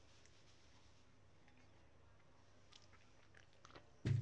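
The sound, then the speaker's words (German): Quiet sips of coffee from a large half-litre mug: a few faint, small mouth sounds over a low hush, then a sudden louder sound at the very end. “Nee, brauchen wir noch ein Schlückchen Kaffee.”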